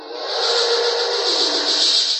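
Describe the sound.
A seven-headed dragon breathes fire with a steady, loud rushing hiss of flames that holds without a break for about two seconds.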